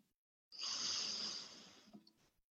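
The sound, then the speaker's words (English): A single slow inhaled breath: a steady airy hiss that rises in at once, holds for about two seconds and then fades away, heard alone in quiet. “Breathe in.”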